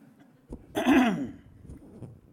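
A single harsh throat-clearing cough from phlegm: one short, rasping burst that swells and then fades, with quiet surroundings before and after.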